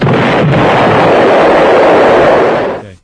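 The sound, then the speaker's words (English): An explosion sound effect played on the radio: a loud, sustained rumbling blast roar that lasts about three seconds before trailing off, with no voices. “Do we have a bomb or blow up or anything like that?”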